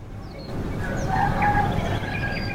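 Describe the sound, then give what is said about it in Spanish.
A rooster crows once in the background, a faint, wavering call that rises and falls over a low, continuous background sound. “Ahora tenemos hasta un gallo de fondo.”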